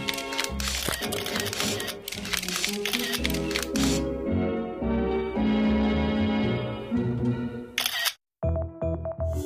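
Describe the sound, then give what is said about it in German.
Camera shutter clicks as photos are taken, with several quick snaps amid a dense, loud, sustained tonal backdrop. A brief gap near the end is followed by a final burst. “Können wir denn jetzt nicht mal das Knipsen sein lassen?”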